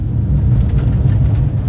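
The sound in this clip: A Panda car drives over dry mountain ground, its low engine and road rumble droning steadily throughout.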